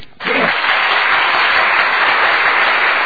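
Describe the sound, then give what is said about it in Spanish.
Applause from an audience bursts in abruptly and holds as a loud, dense, steady roar of clapping with no gaps. “Un aplauso, se merece un aplauso”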